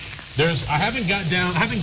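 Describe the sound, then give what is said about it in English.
Lean burgers sizzle on a grill with a continuous bright hiss running throughout, while a person talks over the cooking noise. “the smoke is going to get pretty heavy in here with burgers. Okay. Well, I'm cooking”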